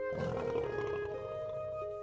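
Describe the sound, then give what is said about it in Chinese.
Little monkeys softly imitate a lion monkey's call, with voices making a low, steady, roar-like growl that holds for about two seconds at a fairly quiet level. “小猴子们满口答应，并且立刻小声地学了一声狮子猴。”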